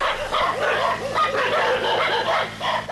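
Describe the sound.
Several dogs bark frantically at a Mongolian ger during a wolf attack: loud, rapid, overlapping yips and barks mixed with whimpers, continuous across the whole stretch.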